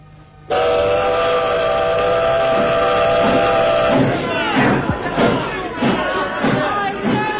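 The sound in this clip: A steam train whistle sounds at departure: a loud, sustained steady tone of several seconds, followed by a series of rhythmic puffs as the train moves off.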